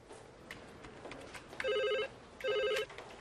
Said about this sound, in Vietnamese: Pick up the phone.